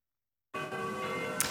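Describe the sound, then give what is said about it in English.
Old bells chime in Belgrade. Faint, sustained ringing tones begin abruptly after a half-second of silence and hold steady to the end. “Yeah, it's a loud old bells here in Belgrade.”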